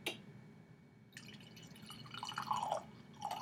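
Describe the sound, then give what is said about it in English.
Wine poured into a glass gives a faint, soft trickle with a few light drips. It grows a little louder partway through and ends with a brief splash. “Okay, guys, we didn't do the ASMR of pouring earlier.”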